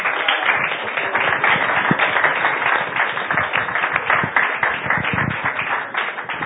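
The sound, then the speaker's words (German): Audience applause greets a guest's entrance, a dense, even wash of clapping that holds steady at a fairly loud level for the whole stretch. “Jetzt kommt mein Freund Karl Blecher. Bekommt einen Auftrittsapplaus.”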